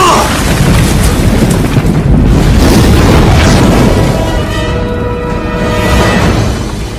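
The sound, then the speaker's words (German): Ship exploding, a loud, sustained rumbling boom with a crackling, roaring texture that stays dense throughout and eases slightly toward the end. “Iroh sah noch, wie sein Neffe auf sein Schiff zurückging. Ein paar Minuten später explodierte es.”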